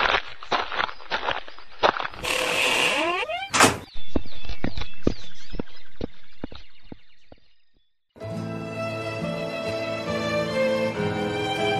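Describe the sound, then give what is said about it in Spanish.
A door being shut, with footsteps and knocks around it. A firm, loud thud closes the door, followed by a brief silence and then other sound. “Cierra la puerta, mujer, para que la clarita no salga.”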